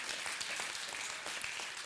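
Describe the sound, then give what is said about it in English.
Congregation clapping during a church sermon series, a dense, even patter of many hands that stays steady and fairly soft throughout the short burst. “I love my church. Clap somebody.”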